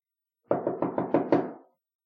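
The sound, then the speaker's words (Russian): Six quick knocks on a door land in an even rhythm, each a short hollow thud, with the last few slightly louder before the sound dies away. “Стучите громче. Он, верно, снова заснул.”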